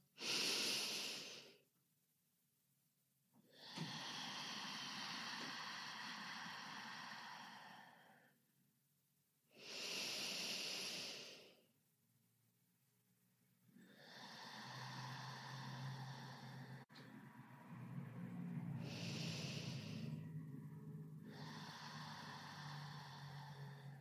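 Slow, meditative breathing: several long, soft breaths drawn in and let out in a calm, even rhythm, each separated by quiet pauses, faint and alone.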